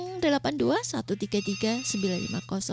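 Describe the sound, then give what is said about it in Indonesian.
A telephone rings on a call-in line, with a high electronic ringing tone beneath a loud, tuneful voice that carries on throughout. “Kayaknya ada yang mau beratensi di line telepon nih, Atin terima dulu ya.”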